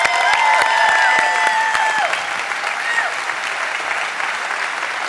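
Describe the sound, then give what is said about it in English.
Audience applause in a standing ovation for guest speaker Dr. Frank Turek: dense, sustained clapping from a crowd, loud and steady throughout, easing slightly in the second half. “So we're going to ask all of you to stand, even though the front row gave him a standing ovation.”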